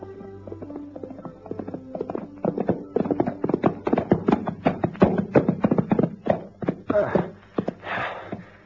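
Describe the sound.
Horse hooves clip-clop as a rider travels across the veld: many steady, hollow knocks in an even rhythm, growing louder after the first few seconds and continuing to the end.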